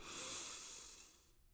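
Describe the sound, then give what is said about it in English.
A deep inhaled breath during a guided breathing exercise: one slow, faint, airy hiss that swells early and then gradually fades, heard alone. “So let's start with our breath. Let's breathe together 3 times. Inhale serenity.”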